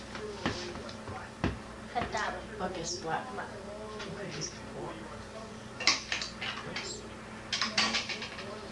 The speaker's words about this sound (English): Would you like me to cut those up for you? What? The sausage?